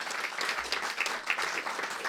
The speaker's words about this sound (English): can you put your hands together to give a warm welcome to our special guest, Mike Stern.